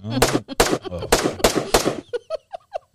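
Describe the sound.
Several loud, sharp gunshot sound-effect bursts crack out in a quick uneven series, overlapping a voice, then a few shorter, quieter pops and tones trail off.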